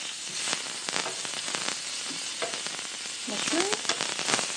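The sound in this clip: Eggs, bacon and mushrooms sizzle in a frying pan with a steady, faint hiss. Sharp crackles and pops of fat scatter irregularly through it.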